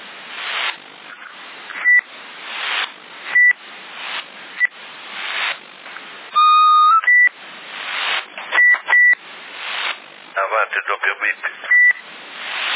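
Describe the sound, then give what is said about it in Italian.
Short electronic beeps sound over a CB radio channel, some coming in close pairs, between bursts of narrowband radio talk, with a brief run of rapid pulsing near the end. “Hai sentito un doppio bip? Avanti il doppio bip.”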